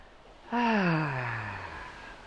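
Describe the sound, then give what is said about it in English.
A deep exhale through an open mouth, voiced like a sigh. It starts abruptly, then slides slowly downward in pitch and fades over about two seconds. “And take a deep breath in. And as you exhale, just open your mouth and”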